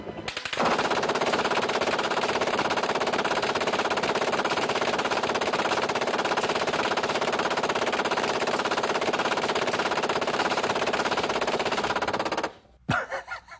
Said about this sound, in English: Here is a guy shooting an M240 machine gun. The gunner will fire 10 seconds or 130 rounds.